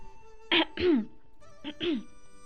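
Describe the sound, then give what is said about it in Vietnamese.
A few light, dry coughs from someone turning away, heard as four short soft bursts in two quick pairs with a pause between them. “xoay lưng lại khẽ ho khan vài tiếng.”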